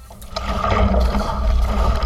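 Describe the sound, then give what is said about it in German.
A kayak paddled on the Elbe river during a training run: paddle blades dip and pull through the water in a steady, rushing splash with soft gurgles, fairly loud and with no voices. “paddeln auf der Elbe”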